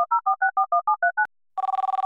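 Touch-tone beeps as a call is speed-dialed: nine quick two-tone beeps in an even rhythm, a short silence, then a fast, buzzy pulsing ring tone.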